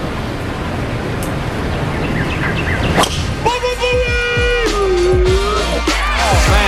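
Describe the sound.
A golf club swings and strikes the ball, heard as a sharp whipping swish over a steady wash of broad noise.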